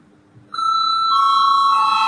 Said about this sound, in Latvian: Lūdzu zvanu.